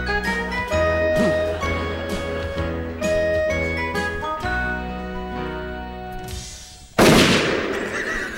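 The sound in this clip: Gunshot effects from a comedy sketch crack out as several sharp pops over a jingling, tonal musical backing, followed near the end by one louder, noisier blast.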